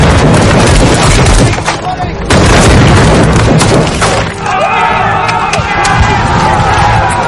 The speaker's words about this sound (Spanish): Un aldeano dispara al soldado. Recibe un tiro en la pierna.